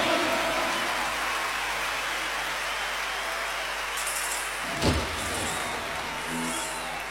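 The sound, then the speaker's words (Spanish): Applause from an audience: a dense, steady wash of clapping that runs evenly for several seconds at a moderate level, with one brief thump near the end. “aplauso.”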